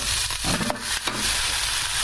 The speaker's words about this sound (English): And I don't want to hit my microphone with a pork chop. So I'm going to go down in here. You can use a fork. In this instance, I'm using a spatula.